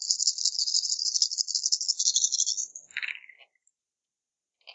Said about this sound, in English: And roll the 8 dice? Yep.